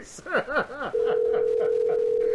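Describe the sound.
Brief talk gives way to a steady, continuous telephone ringing tone as a late-night sports show calls a guest. The tone holds at an even pitch and level until the end.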